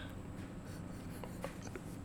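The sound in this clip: Faint scratching of a pen writing letters by hand. Soft, short strokes come in a loose, uneven rhythm against a quiet background.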